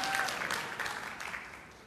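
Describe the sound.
An audience in a church sermon setting claps, a burst of applause that is loudest at the start and gradually thins and fades over about two seconds.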